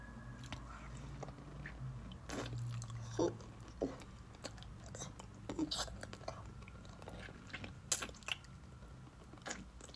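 Wet chewing of a slimy brick of gum: a quiet run of soft, squishy bites and smacking sounds at an irregular rhythm, with no talking.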